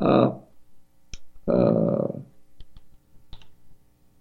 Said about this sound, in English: Let's see if we let me tap a note to the engineer here.